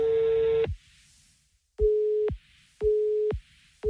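Telephone call signal: a short buzzy tone, then a series of repeated steady beeps at one mid pitch separated by brief gaps, clear and alone with no voices.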